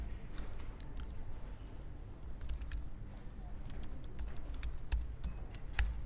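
Typing on a computer keyboard while entering a form, a steady run of many quiet, irregular key clicks with no talk.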